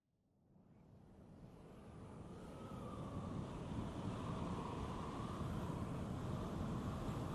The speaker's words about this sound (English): That's a little too windy. We're going to go light wind.